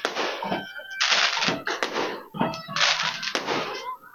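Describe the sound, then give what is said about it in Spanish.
Fireworks explode at a night festival and fair held in honor of a patron saint, with several sharp, loud cracks and hissing bursts in an irregular sequence, some following close together, over a low background. “Las bombas de colores que observamos esta noche. Aquí observamos las bombas de colores.”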